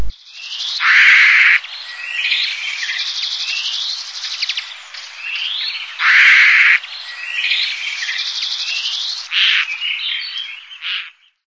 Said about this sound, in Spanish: Pollos en nido reclamando alimento.